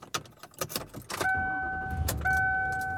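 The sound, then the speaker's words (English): A car being started for a drive: keys jangle in a few quick rattles, then a steady two-tone chime sounds over a low, continuous engine hum. “And I am driving around.”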